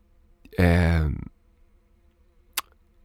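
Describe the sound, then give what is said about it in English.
A bee buzzing: a single loud, droning burst lasting about half a second, then quiet with a brief sharp click. “the fucking bee is so distracting. Give me a sec.”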